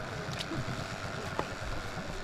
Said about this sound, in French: On se rejoint au niveau du rivage, on prend les bateaux et on part vers un endroit situé le long de la côte.